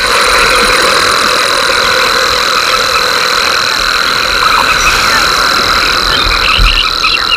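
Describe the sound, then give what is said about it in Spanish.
A rare cricket called cascabel de plata, from arid white salt flats, stridulates in a continuous high-pitched trill that holds steady throughout, with a low rumble underneath. “un grillo que canta, es muy escaso, que canta estridula. En las tierras más áridas, salobres, blancas de sal, y que lleva paradójicamente el nombre de cascabel de plata.”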